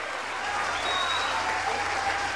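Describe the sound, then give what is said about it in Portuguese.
Applause from a crowd at a public event honoring railway construction workers, a dense, continuous patter of clapping holding steady for the whole stretch. “eu queria solicitar uma salva de palmas a todos vocês que vestem macacão para construir a Transnordestina brasileira.”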